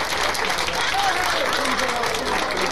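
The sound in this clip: Audience applause welcoming a drummer from New Orleans at a jazz performance, a dense, steady wash of clapping that continues without pause.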